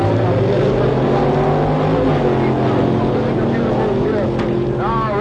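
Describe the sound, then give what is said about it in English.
Roaring engines of a 1963 Chevrolet with a 427 cubic inch V8 and a 410 horsepower Ram Charger 413 cubic inch Mopar Dodge launching at a quarter-mile drag race. A loud, dense, continuous drone with strong layered harmonics runs throughout, with a voice talking over it. “427 cubic inch 1963 Chevrolet. On the line against him in the other lane is a Ram Charge 413 cubic inch, 410 horsepower Mopar Dodge.”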